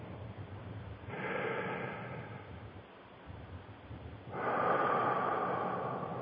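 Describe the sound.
Deep, slow breaths are drawn in and let out during a guided breathing exercise: two long, soft, breathy whooshes separated by a quiet pause, the second slightly louder.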